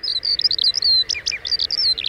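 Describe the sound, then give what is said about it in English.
A skylark sings a rapid, continuous stream of high, thin chirps and trills, bright and busy, with no pauses between notes. “To glimpse the singing skylark, look high up, where the male flutters and circles perhaps 100 feet off the ground, broadcasting its complex song.”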